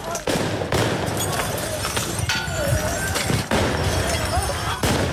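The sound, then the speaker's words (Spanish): A street protest in France rings with explosions, a few sharp bangs cracking over a constant, dense, noisy din of crowd voices and clatter. “Hoy eso no ha significado que hayan bajado la intensidad de las manifestaciones, porque hoy las calles allí en Francia se escuchan de esta manera.”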